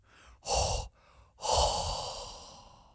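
Hot, heavy breathing blown straight into a microphone: a short, loud breath, then a longer, airy exhale that slowly fades away, with no talk over it.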